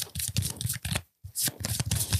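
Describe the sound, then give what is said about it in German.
Playing cards being shuffled, with rapid papery riffles and flutters in dense, fairly loud bursts, broken by one brief pause before the shuffling continues. “Oh, oh ja, lass mich mischen. Du kannst nicht mischen.”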